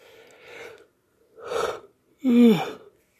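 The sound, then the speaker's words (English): A person who has just woken up yawns repeatedly: three breathy bursts separated by short pauses, the last one loudest with a voiced groan that dips in pitch. “Sorry. These damn yawns. I know, I just woke up.”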